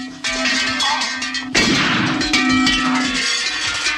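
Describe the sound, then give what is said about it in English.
A heavy hanging bell clangs as it is swung against a man's head in a cellar fight. Two loud metallic strikes ring out, each leaving a sustained, resonant tone. “They both fall, and Bond swings a heavy bell against his attacker's head.”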